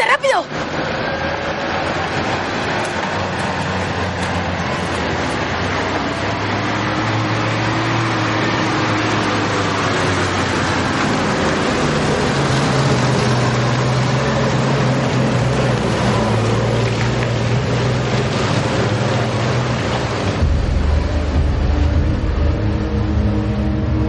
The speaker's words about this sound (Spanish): De pronto, dos coches se aproximan a la zona.